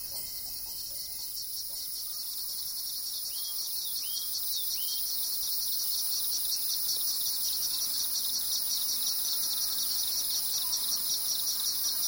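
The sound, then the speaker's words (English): Insects chirping outdoors along a trail, a dense, high-pitched buzzing chorus that holds steady and unbroken throughout, with no voices. “Insects.”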